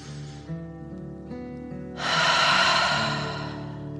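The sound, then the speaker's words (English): A deep breath in and out, part of a calming breathing exercise: a loud, airy rush of breath rises midway through over a soft, sustained low tone, then slowly fades. “Again, deep dragon breath in and out.”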